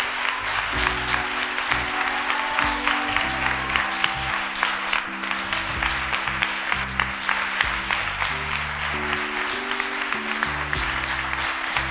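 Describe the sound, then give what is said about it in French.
Congregation applauding during a church service: dense, steady clapping fills the whole stretch without pause, layered over sustained low keyboard or bass tones that shift in pitch. “Est-ce que tu peux acclamer le Saint-Esprit”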